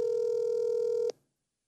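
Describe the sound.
A single steady touch-tone beep from a telephone being dialed, held for about a second before cutting off cleanly into silence.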